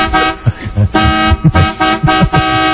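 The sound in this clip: A car horn honks in a rapid, insistent series of loud, bright toots separated by brief gaps.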